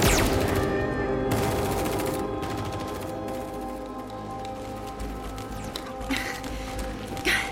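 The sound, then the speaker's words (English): Gunfire from soldiers firing at will: dense, continuous crackling volleys of shots that overlap with no clear gaps, staying loud and steady throughout with a few sharper bursts standing out. “Covering fire for the chief. Miss Stewart, Osgood, out of here now! Bravo detail, fire at will!”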